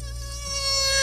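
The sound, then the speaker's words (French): A voice imitates a fly with a continuous buzzing drone of many overtones that grows slightly louder toward the end. “une mouche”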